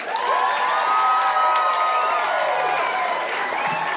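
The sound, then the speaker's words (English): A comedy-show crowd in Denver greets a comedian with loud, sustained applause mixed with cheering and high whoops that carry steadily through the whole stretch. “Let's give a big hand to Andrew Santino.”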